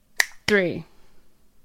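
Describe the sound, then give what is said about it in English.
A sharp finger snap, done in place of a clap during a group count-in: one crisp, bright crack, followed at once by a short voiced sound that falls in pitch. “I had to snap instead of clap, and I feel so embarrassed.”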